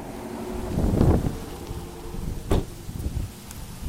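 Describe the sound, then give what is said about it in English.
Strong wind buffets a microphone outdoors on a very windy day in Houston, a continuous low rumbling roar with gusty surges, heaviest near the start and with another sharp gust midway. “Excuse the wind, you guys. It's very windy out right now.”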